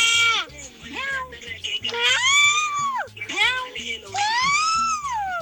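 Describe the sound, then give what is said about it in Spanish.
A person imitates a cat's meow with a few loud, drawn-out, wailing vocal meows that bend up and down in pitch, separated by short pauses. “está haciendo el sonido de un gato”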